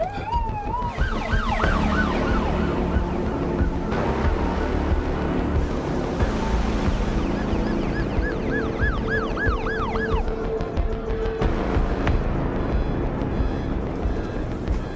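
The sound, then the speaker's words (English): Ambulance siren responding to a call at a convenience store: a continuous loud wail of rising and falling sweeps that shifts into faster oscillating cycles, over a constant rumble of engine and road noise. “The ambulance pulls up near the Lucky Mart.”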